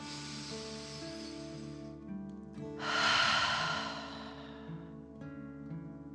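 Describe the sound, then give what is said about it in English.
A deep breath in, then a rushing exhale out through the mouth during a guided relaxation breathing exercise. The airy outbreath swells loudest midway, over soft, steady sustained music tones. “pretending you are breathing fire. Ready? Deep breath. In and out.”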